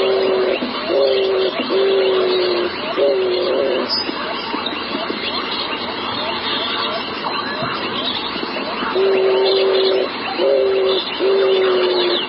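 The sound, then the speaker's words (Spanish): A dove gives a low-pitched cooing call in two series of soft, evenly spaced coos separated by a pause. The coos sit over a constant background hiss and buzz. “Aquí viene, como otras palomas, los sonidos son graves. Es decir, miren que a diferencia de los que hemos escuchado hasta el momento, como por ejemplo la del copetón, este sonido tiene una frecuencia baja, como así.”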